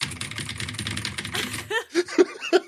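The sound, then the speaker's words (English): Rapid, dense clatter of typewriter keys struck in quick succession for under two seconds, followed by voices and bursts of laughter. “It's actually just a typewriter.”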